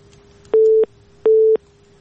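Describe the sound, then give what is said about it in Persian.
A busy tone after a phone call is cut off: two loud, steady electronic beeps of equal length and pitch, evenly spaced with short silences between. “تماس اینا قطع شد.”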